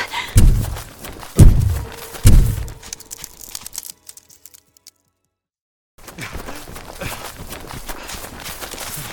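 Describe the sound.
Footsteps of people running away from a creature: three heavy, evenly spaced thuds, a brief quiet gap, then a steady rustling patter of movement.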